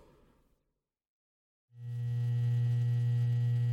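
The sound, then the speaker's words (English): An electrical transformer hum: a faint brief noise fades into silence, then the hum switches on abruptly and holds as a loud, steady low drone with buzzing overtones. “This is the sound of an electrical transformer.”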